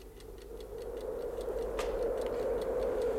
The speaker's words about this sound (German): Ich stellte den Wecker auf eine Kabelrolle.